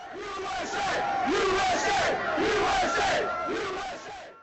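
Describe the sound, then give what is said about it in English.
A large crowd at the White House chants "USA" in a repeated, rhythmic cadence, celebrating the news that Osama bin Laden had been killed. The many voices swell loudly together on each repetition. “These crowds are all chanting the same thing, that USA hits all the targets of a good chant.”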